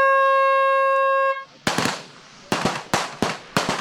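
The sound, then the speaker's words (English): Sharp gunshots at Switzerland's Feldschießen, the annual Swiss field shooting festival, ring out as several loud, abrupt bangs at uneven intervals, each with a short decaying tail, following a steady electronic tone. “Welcome to the Feldschießen, Switzerland's annual field shooting festival that's said to be the largest shooting competition in the world.”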